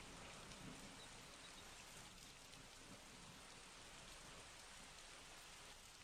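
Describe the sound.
Rain falls in a steady, dense patter of drops that hiss on without pause, soft and even throughout.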